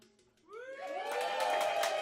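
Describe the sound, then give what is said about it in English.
An audience at a live music gig cheers and whoops, with rising shouts that swell after a brief quiet start into a sustained crowd roar, with some clapping mixed in. “Please, big round of applause for yourselves for showing up.”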